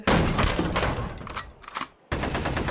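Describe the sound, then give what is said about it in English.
A rapid volley of gunfire from the Swiss Guards' weapons in Rome: dense overlapping shots crackle loudly, thin out briefly into a short gap, then resume at full strength. “I didn't know they had guns. They're for more than just ceremonies, you fools.”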